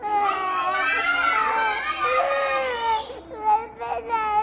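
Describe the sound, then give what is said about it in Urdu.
A child cries loudly and steadily in a high, wailing voice, then breaks into shorter sobbing bursts near the end. “یہ اتنی دیر سے روئے جا رہے ہیں, اتنی دیر سے.”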